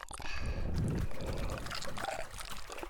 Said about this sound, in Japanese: ローションをお湯に溶かして、